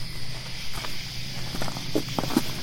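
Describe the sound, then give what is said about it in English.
Footsteps of people walking up a road: several steps land at an uneven pace over a steady background hiss, with no talking. “I'm thinking, if you want, we'll walk up this road.”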